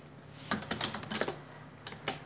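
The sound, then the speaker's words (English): Typing on a computer keyboard into a run box: a few faint, scattered keystroke clicks in an uneven rhythm, with no voices. “why am I typing something in the run box?”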